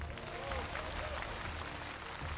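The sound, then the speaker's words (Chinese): Audience applause at a televised singing competition, a continuous wash of clapping with music playing underneath. “来，掌声给他们，”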